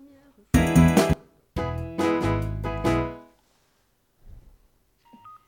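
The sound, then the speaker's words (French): A telephone rings, heard as two loud bursts of dense, buzzy tone with a short break between them, followed by a few faint, scattered sounds. “on va attendre la sonnerie du téléphone, un auditeur mystère. J'attends un appel.”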